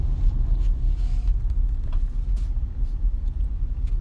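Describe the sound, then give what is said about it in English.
Car driving in the rain in Houston, a steady low road rumble with a broad hiss over it that continues throughout, with no voices. “I don't know what it is with driving in the rain here in Houston, but it just it plays with people's freaking minds, and it makes people drive like idiots”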